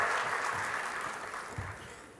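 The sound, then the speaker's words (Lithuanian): Audience applause welcoming a guest onto a show, a fairly soft patter of many hands clapping that slowly fades in level over its couple of seconds. “Pasitikime plojimais.”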